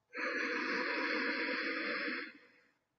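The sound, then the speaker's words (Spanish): Deep inhalation during a guided breathing exercise: one steady, airy breath drawn in for about two seconds, then tapering off. It is soft and heard alone. “Inhala, sostén Exhala. Dos veces más. Inhala.”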